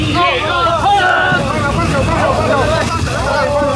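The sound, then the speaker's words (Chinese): A motorboat engine drones steadily at night during a flood rescue as volunteers head into a town. A voice speaks over it throughout, and some wind noise rushes underneath. “记者跟着摩托艇救援志愿者进入甘塘镇”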